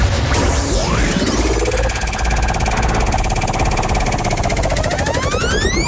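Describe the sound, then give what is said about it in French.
A game show prize wheel spins with rapid, continuous ratchet-like ticking that stays loud and even throughout, while sweeping synthetic tones glide over the clatter. “On va ensemble tourner la roue pour découvrir l'épreuve.”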